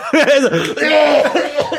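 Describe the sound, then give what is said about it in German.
Someone splutters and coughs after choking on a Jaffa Cake while laughing. A short, loud run of strained, voiced hacks blends with laughter. “Nein, ich musste lachen und dann ist ein Jaffa Cake in meinen Rachenraum gekommen.”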